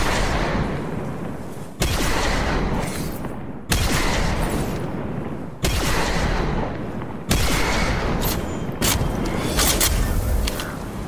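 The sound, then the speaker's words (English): A kinetic sniper rifle fires in a video game, with five heavy, booming shots about two seconds apart. Each sharp crack is followed by a long, rumbling tail, and a few light mechanical clicks come near the end. “good kinetic slot sniper that's very easy, very beginner friendly, I would say, if you're just learning to snipe or just want to fool around with a sniper. Here's what it sounds like.”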